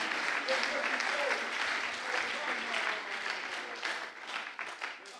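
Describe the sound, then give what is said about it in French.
A church audience applauds loudly during worship, with thick, continuous clapping from many hands and some voices mixed in, holding steady before easing slightly toward the end. “J'aimerais qu'on l'acclame très fort.”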